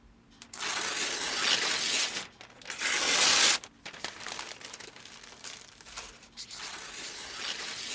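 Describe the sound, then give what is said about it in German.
Tearing of an old paper plan: a few long, loud rips of dry paper, separated by short pauses, with a softer final tear. “Ich zerreiß den alten Plan und du malst einen neuen.”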